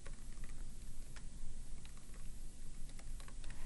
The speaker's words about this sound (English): So I can type my colleague's name